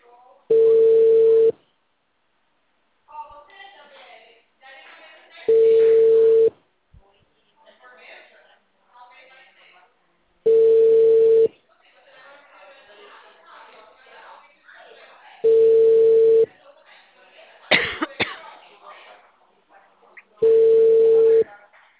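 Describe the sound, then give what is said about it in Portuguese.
Ringback tone on an outgoing phone call: five long, steady, mid-low beeps, each about a second long, repeat at even intervals of roughly five seconds, with a person talking quietly in the gaps. “Tá chamando, vamos ver.”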